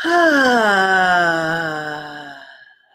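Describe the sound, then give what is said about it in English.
A deep breath let out with a voiced sigh during a guided exercise: one sustained vocal tone that glides slowly downward in pitch and fades out over a couple of seconds. “Take a nice deep breath. Let it out with sound.”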